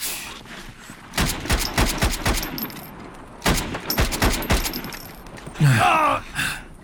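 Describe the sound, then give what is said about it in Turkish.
Gunfire in a combat scene where one shooter lays down covering fire: rapid volleys of sharp, loud cracks in quick bursts, followed by a brief strained voice. “Ben ateş edeyim, siz koşun. Ben koşarken beni koruyun.”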